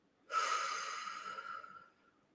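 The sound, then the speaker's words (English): A single deep human breath, drawn in and let out over about two seconds during a breathing exercise. It is a soft, airy rush that starts suddenly and fades away gradually, with no talking. “Another deep breath in”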